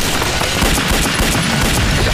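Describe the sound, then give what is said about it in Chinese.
Gunfire sounds as a loud, dense, continuous crackling volley of overlapping shots with no gaps, filling the whole moment without any voices. “我开枪把他们吸引过来了。”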